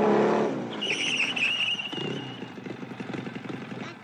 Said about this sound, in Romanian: Vine cu motocicleta aia.